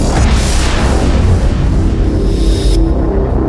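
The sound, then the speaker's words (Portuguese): Heavy gunpowder artillery fire plays as a sound effect, a loud, dense booming rumble that stays continuous and strong throughout. “Mais pólvora! O cheiro de pólvora ferve meu sangue. Artilharia pesada nestes covardes.”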